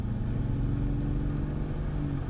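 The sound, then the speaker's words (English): A car drives up a tree-lined pathway to a party house, its engine a steady low rumble that holds at an even level throughout. “Holly drives up the tree-lined pathway to the party house.”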